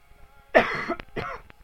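Two rough coughs aimed downward, each a short breathy burst with a gap between them and faint clicks just after.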